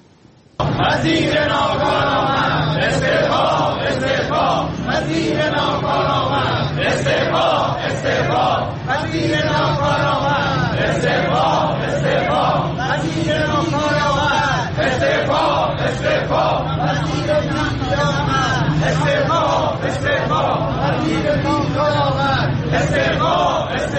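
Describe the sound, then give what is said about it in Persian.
A crowd of teachers protesting outside the Ministry of Education building in Tehran, many voices chanting and shouting loudly and continuously in a rhythmic, repeating pattern throughout. “در تهران دوم اردیبهشت گروهی از معلمان و آموزگاران روبروی ساختمان وزارت آموزش و پرورش نسبت به پرداخت نشدن مطالباتشون دست به تجمع اعتراضی زدند.”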